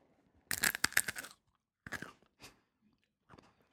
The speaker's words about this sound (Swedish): Nej, du måste äta lugnt.